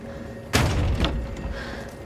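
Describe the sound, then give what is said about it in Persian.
A door shuts with one heavy, abrupt thud, followed by a short rattling decay that fades out. “درم ببند.”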